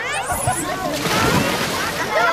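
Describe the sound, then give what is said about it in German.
A busy swimming pool's non-swimmer area, with children splashing, diving and using swim rings. Continuous sloshing and splattering water runs throughout, with voices mixed in. “Aber auch im Nichtschwimmerbecken ist total viel los. Da haben wir Schwimmringe, Kinder tauchen.”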